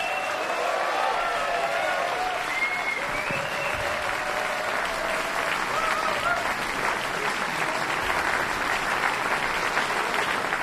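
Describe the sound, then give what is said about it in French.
An enthusiastic audience applauds at a jazz festival duo concert in the Salle Paderewski, Casino de Montbenon, Lausanne. Loud, sustained clapping fills the whole stretch without a break. “Le public en délire de la salle Paderewski au casino de Montmenon à Lausanne.”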